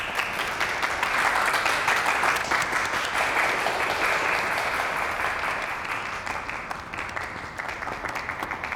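Group applause welcomes a new member joining a machine repair team, a dense, steady patter of many hands clapping at once that stays loud throughout and eases slightly toward the end.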